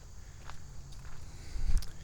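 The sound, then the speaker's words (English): Footsteps walking outdoors beside a vestigial wall on the way to spot herons: a few soft, quiet steps over faint background hiss, with low thumps growing a little heavier toward the end. “Here I am walking by the vestigial wall.”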